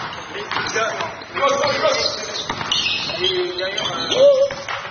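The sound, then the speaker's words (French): Basketball shoes squeaking on the court: short, high-pitched rubbery squeals scattered over steady game noise, with ball thumps and voices in the background. “Ah voilà, c'est pas le basket, c'est le bruit du couinement des chaussures. Pourquoi les chaussures de basket font-elles ce bruit horrible?”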